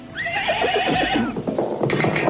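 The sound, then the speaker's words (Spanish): A farm horse gives a long, loud whinny, then quick clip-clopping hoofbeats follow. “¡El caballo se nos ha escapado!”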